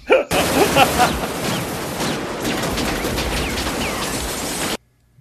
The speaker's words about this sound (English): I left that little bit of audio of the guns firing just to give you an idea that there's a lot of bullets flying.